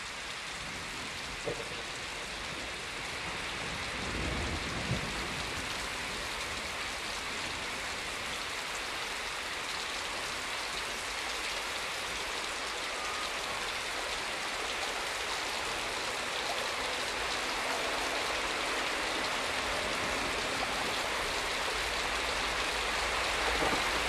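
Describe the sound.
Steady rain pours onto a wide, rolling river in the Amazon, a dense, even hiss of drops that stays constant throughout with no voices.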